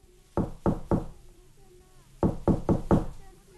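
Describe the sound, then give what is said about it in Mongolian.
Knuckles rap on a wooden door of a house, a set of three sharp knocks followed after a pause by a second set of four, loud and evenly spaced. “Тэгээд санд мэнд үүдийн тогшоод”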